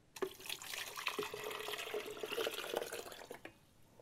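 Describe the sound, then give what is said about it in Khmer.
Coconut water with pieces of coconut flesh pours into a bowl, a steady, fairly faint splashing trickle with small drips and plops, which stops shortly before the end. “យើងចាប់ផ្ដើមដាក់ទឹកដូងចូលចានៅក្នុងទឹកនេះគឺមានសាច់តែម្ដងគឺសាច់ដូង”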